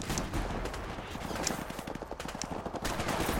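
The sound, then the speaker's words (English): Video game gunfire, many sharp shots crackling in quick, uneven bursts at a fairly low level, with a few brighter, louder reports standing out among the rapid fire. “it's so hard to shoot things. It's just push the trigger. There you go. Just shoot again.”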